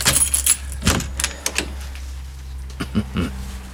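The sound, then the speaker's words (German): Keys jangling as several keys are tried in a lock, one not fitting and another fitting: a few bright metallic clinks and rattles, with quieter scraping and fiddling between them. “Jetzt habe ich hier einen Schlüssel. Der passt nicht. Hier einer, der passt.”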